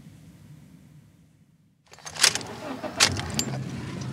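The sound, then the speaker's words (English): A car drives the last few blocks and pulls into a house driveway: near silence, then a rising engine and tire rumble with a few sharp mechanical clicks as it parks. “We drive the last couple of blocks to the house and park in the driveway.”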